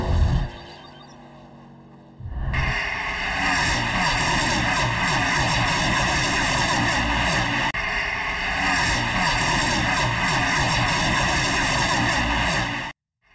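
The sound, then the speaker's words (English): Loud engine roar of NASCAR race cars racing at Michigan, a dense, steady drone with strong sustained tones. It rises abruptly after a quieter opening, holds nearly constant for about ten seconds, then stops sharply. “capturing the sights and sounds of racing at Michigan”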